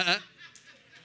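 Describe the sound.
A human voice imitates a sheep bleating with one short, nasal, harmonic 'baa' at the start, followed by faint breathy, chuckle-like sounds.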